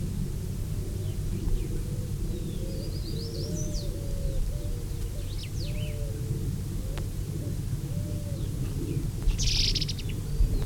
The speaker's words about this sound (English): Three birds still interacting.